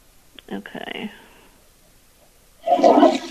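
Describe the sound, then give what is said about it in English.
A toilet flushed by its lever, a faulty toilet that overflows onto the floor, bursts in as a loud rushing whoosh after a quiet stretch of soft speech. “Every time I flush, every time I hit the lever.”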